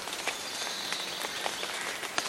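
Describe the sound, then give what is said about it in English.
Light rain falls on a park east of Seattle, a steady soft hiss with scattered faint taps and drips throughout. “A light rain is falling on Merrymore Park, east of Seattle.”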